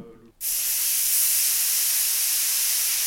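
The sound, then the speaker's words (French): Steady, loud hiss of steam from a hot iron pressed onto a wet cloth, used to fake the sound of a seven-hour leg of lamb cooking. It starts abruptly and holds an even, broad sizzle to the end. “Voilà la cuisson du gigot de 7 heures avec un fer à repasser, branché chaud et un chiffon mouillé.”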